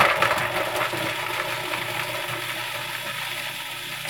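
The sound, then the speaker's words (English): A food processor whirs as it chops twelve garlic cloves, making a steady, loud grinding drone that runs unbroken to the end. “So I just start by whirring the garlic in the food processor, 12 cloves.”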